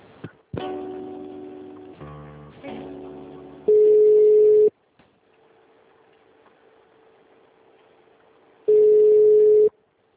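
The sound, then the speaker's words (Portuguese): Telephone tones on a call being transferred: a few seconds of shifting, buzzy electronic tones, then two long, steady, mid-pitched beeps about five seconds apart, with near silence between them. “Só um minutinho que eu vou transferir a ligação.”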